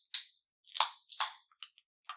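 Quiet, sharp cracks and short hisses as cans of Innis & Gunn Mangoes on the Run are pulled open, a few crisp pops spaced out with brief fizzing tails.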